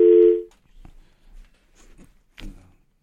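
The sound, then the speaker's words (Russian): A single telephone line tone sounds on an incoming call to a call-in line: a loud, steady, low buzzing tone held for about half a second, then cut off and followed by faint, scattered low sounds. “а вот звонок. Сейчас поговорим.”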